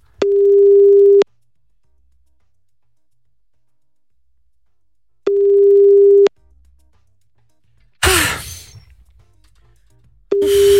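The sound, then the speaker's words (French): A telephone call being placed, heard as a steady, low ringback tone: two long one-second beeps about four seconds apart, a brief rough clatter, then a third beep starting at the end. “On appelle Malik tout de suite.”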